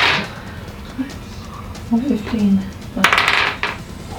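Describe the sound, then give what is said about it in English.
Dice rolled for damage onto a table during a Dungeons & Dragons game: a brief clatter of several hard, bright clicks near the end, with people talking earlier. “Roll damage. Roll an extra damage dice onto it. Roll.”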